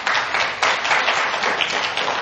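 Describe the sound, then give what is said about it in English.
Audience applause after the return of a Bible teacher: a dense, steady wash of many hands clapping, holding at an even loudness throughout with small swells and no voices above it. “yeah, you can applaud.”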